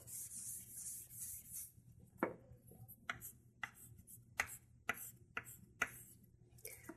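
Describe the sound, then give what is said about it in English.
Faint handwriting: a longer rubbing stroke, then many short scratchy strokes and taps in an uneven rhythm, with no talking. “And, of course, let me write that here.”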